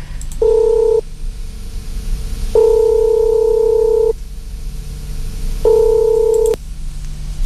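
A telephone call rings out while the caller waits for someone to answer, three steady mid-pitched tone bursts separated by quiet pauses, heard alone.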